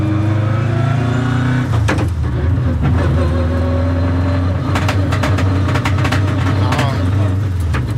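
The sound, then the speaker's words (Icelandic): A rally car engine held at full throttle in sixth gear gives a loud, steady droning roar with stacked tones that briefly break and shift early on, then run on evenly with faint clicks and rattles above. “Þessi bíll hefur hámarkshraða upp á svona 200 km hraða cirka. Þá er hann í sjötta gír alveg í hvínandi botni.”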